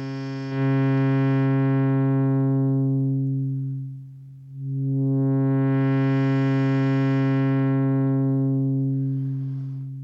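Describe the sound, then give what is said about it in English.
A sustained buzzy synthesizer tone whose low-pass filter is closed by hand, so the bright upper overtones fade until the sound nearly dies away, then the brightness and full harmonics return as the filter reopens. “So I'll close the filter, and we'll cut out first the higher overtones and then all of them.”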